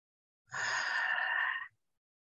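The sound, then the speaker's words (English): One long, deep breath taken during a guided meditation, a soft, steady airy rush lasting just over a second, heard alone against silence. “Go ahead and take a deep breath.”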